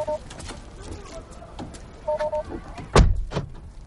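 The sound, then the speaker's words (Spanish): A car door thuds shut as someone gets out of a car: one loud, heavy slam near the end, preceded by short two-tone electronic beeps that sound twice over a low background rumble. “sale del coche.”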